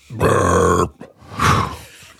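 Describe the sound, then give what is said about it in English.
A burp after drinking beer: one loud, low, voiced belch of about half a second, followed after a short pause by a second, breathier vocal sound. “Apparently beer wine makes me burp.”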